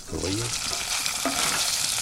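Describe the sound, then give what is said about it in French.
Food sizzles and crackles steadily as it cooks at low temperature in a cast-iron pan. The bright, hissing fry stays fairly even throughout. “Tout cuit dans des... uniquement dans de la fonte, c'est une cuisson à basse température.”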